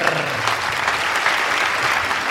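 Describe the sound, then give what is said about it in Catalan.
Applause for a prize winner: dense, steady clapping from a group, continuous and unbroken for the whole moment. “Doncs ara sí, fort aplaudiment”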